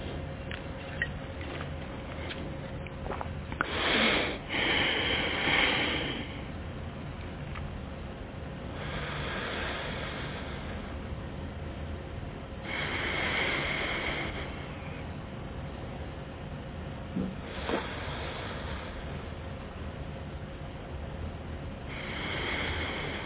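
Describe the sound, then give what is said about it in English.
Slow, deep breaths during a guided breathing exercise: several soft, airy bursts of breath spaced a few seconds apart, faint against a steady low hiss, with no talking. “So however you want to do your big 9 breaths, we'll do that.”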